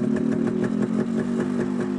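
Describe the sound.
A motorcycle engine idles in a steady, low purr, just after the starter is used and with the brake held. The engine pulses evenly and stays loud throughout, with no talk.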